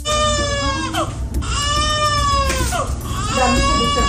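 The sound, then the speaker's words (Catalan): A baby cries after being rescued from earthquake rubble, where it was trapped with its mother for 72 hours. It gives a few long, loud, wavering wails with short gaps between them, over a low rumbling background. “Aquest és el so d'un petit miracle. El nadó rescatat era amb la seva mare. Han estat 72 hores sota la runa.”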